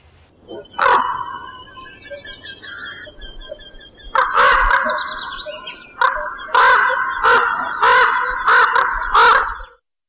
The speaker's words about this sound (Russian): Ворон.